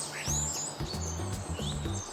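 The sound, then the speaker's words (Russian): Starling calling with a few quick, high whistles, some sweeping upward, over faint, low, pulsing background sound. “скворец”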